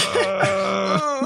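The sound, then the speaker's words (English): A man's drawn-out vocal groan while deliberating, a low voiced hum with a wavering, throaty tone and a few small breaks, heard alone for about a second. “The groaning noise of deliberation.”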